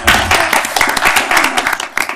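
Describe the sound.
An audience applauds an Older Americans Month proclamation in Portland, Oregon, with dense, loud clapping that fills the whole clip.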